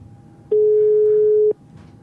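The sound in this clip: A telephone ringing tone sounds while a call is placed: one steady, mid-pitched beep lasting about a second, with quiet line noise before and after.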